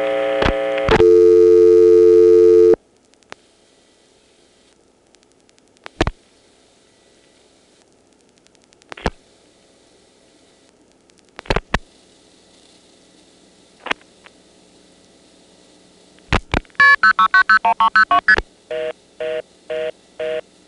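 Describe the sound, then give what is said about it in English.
Telephone exchange dialing on level 9-4 with the register sender dropped: a steady tone at the start, then a few isolated sharp clicks, followed by a rattling burst and a run of short, regular beeping tones. “If we drop the register sender and dial 9-4...”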